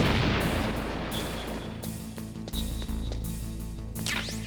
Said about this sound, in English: C4. How do you use this? Set it. Detonate it.